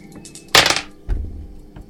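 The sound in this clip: Dice clatter onto a table during a tabletop role-playing game. A sharp, loud rattle is followed by a shorter, lower knock, and there are no voices over it.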